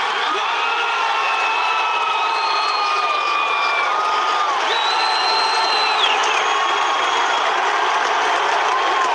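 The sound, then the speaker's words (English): A crowd reacts to a presidential announcement with a mix of boos and cheers: a dense, continuous roar of voices threaded with shrill whistles, loud and unbroken. “Sounds like a mix of boos and cheers.”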